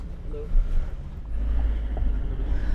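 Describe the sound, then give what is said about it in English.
A car driving through the border crossing between Turkey and rebel-held northern Syria: a steady, fairly loud low engine and road rumble with wind noise, continuous throughout. “Driving through the border now.”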